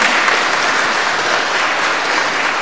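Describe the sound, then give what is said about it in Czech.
An audience applauds in a dense, steady wash of many hands clapping, loud and unbroken from start to finish. “Můžeme zatleskat, že může očekávat.”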